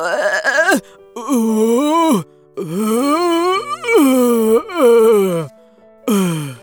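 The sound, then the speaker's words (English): A very sick warrior moans and groans in a series of loud, drawn-out voiced moans. Each wavers and bends in pitch, with short gaps of quiet between them and no words spoken. “She had never seen him sick like this before. He was moaning and groaning.”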